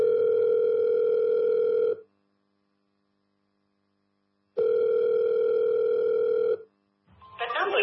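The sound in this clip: A telephone call rings out on the line with two long, steady, buzzing ringback tones of about two seconds each, separated by silence. A voice begins speaking just after the second tone.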